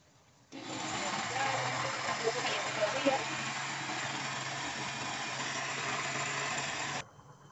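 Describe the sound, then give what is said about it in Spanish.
A blender purees cooked pears for compote, its loud, steady whirring drone starting abruptly, holding an even pitch for about six and a half seconds, then cutting off. “Y ahora sí, vamos a proceder a licuar. Colocar en la tapa.”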